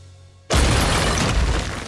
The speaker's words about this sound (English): A brick wall explodes.